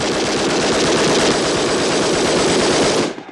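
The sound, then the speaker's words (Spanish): Rapid gunfire erupts during a popular protest in front of the Winter Palace: a dense, loud, continuous crackling burst that holds steady for about three seconds, then cuts off abruptly. “¡Son disparos!”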